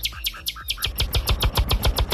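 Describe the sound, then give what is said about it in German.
A nightingale sings a rapid run of bright, high chirps in a steady repeating rhythm over a throbbing low pulse, loud and without voices. “Sensationell. Also nicht schlecht. Die Nachtigall hat was drauf, du.”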